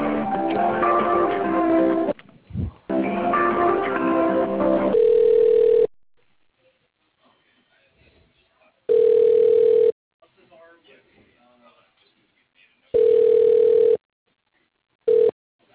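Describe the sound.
Ringback tone of a telephone call being transferred, heard after brief talk at the start: a steady, low, clean tone sounding in short bursts every few seconds, with near silence between the rings.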